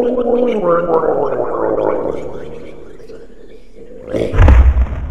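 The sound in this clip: A murloc creature from a video game gurgles as it falls, a wet, warbling, throaty gargle that trails off, then a heavy low thud near the end.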